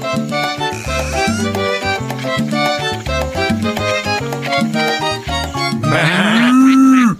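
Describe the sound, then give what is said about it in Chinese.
Barn animal sounds in a children's cartoon: a bouncy, rhythmic tune plays, then a single loud cow moo rises and falls just before the end. “我听见有好多动物的声音啊！”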